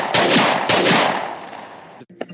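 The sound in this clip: A gunshot sound effect fires twice in quick succession. Each loud blast booms and then trails into a long, rumbling decay that fades away.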